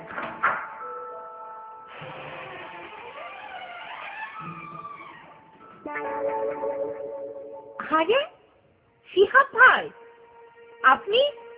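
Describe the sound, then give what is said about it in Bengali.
Electronic doorbell chime ringing in a home, sustained tones followed by a second chime, then voices talking in short bursts. “কিছুটা দ্বিধাগ্রস্ত ভাবে calling bell টিপল Shihab.”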